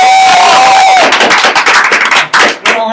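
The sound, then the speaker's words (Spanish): An audience applauding in a plaza at a comic convention: loud, dense clapping mixed with crowd cheering, turning more uneven and patchy toward the end. “Damas y caballeros, un aplauso.”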